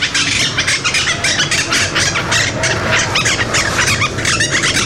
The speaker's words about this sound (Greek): Είναι η μειοψητακή. Αυτή η μειοψητακή. Είναι ένα από τα τρία είδη παπαγάλου που αναπαράγονται στην Αθήνα μέσα.